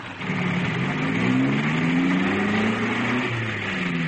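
A taxi accelerating hard away, its engine note climbing steadily in pitch, with a drop and renewed climb partway through as if shifting gear, a smooth, moderately loud drone heard alone.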